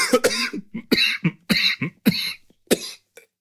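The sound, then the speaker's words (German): A coughing fit after choking: a rapid string of harsh, loud coughs in uneven bursts with short gaps, trailing off into a few weaker hacks at the end, with no speech. “Entschuldigung, ich habe mich total verschluckt.”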